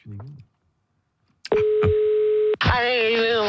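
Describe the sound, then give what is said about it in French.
Telephone line tones as a radio host calls a listener. A brief voice is followed by a pause, then a loud, steady single-pitched tone with a couple of clicks, which cuts off abruptly as a voice comes on. “J'appelle quelqu'un qui s'est inscrit au Anière 12-12. Je l'appelle, je lui demande quelle est la seule radio qui paye votre dentier”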